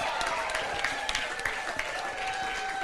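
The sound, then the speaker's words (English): Audience applause for a guest at a church gathering, a steady wash of many hands clapping with crowd murmur, sustained and even throughout. “Give Laura a massive hand.”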